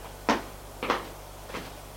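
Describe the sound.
Knocking on a doctor's office door in a hospital intensive care unit: a few sharp, spaced raps, fairly faint over a low steady hum.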